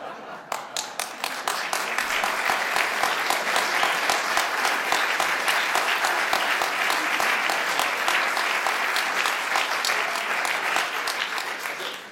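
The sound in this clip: Audience applause starts as a few scattered claps and within two seconds becomes dense, steady clapping that continues at an even level to the end.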